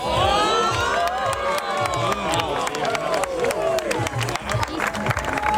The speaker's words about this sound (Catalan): com que no podem descriure a vegades en paraules el que vivim, escolteu la reacció de la gent.